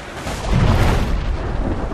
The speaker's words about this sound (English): A gigantic wave breaking.